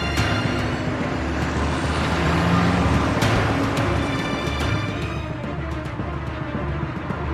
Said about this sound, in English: Now speeding down the dark, snowy highway.